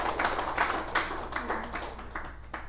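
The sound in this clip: Audience applause at a Buddhist dharma talk: a steady, moderate patter of many hands clapping that thins slightly toward the end.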